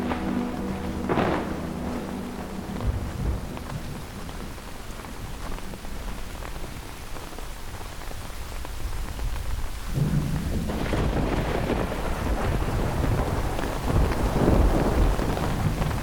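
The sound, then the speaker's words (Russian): A summer thunderstorm: heavy, steady rain hisses throughout while deep thunder rumbles, with one loud roll near the start and a long, swelling rumble building through the second half. “Начинается дождь. Это обычная летняя гроза.”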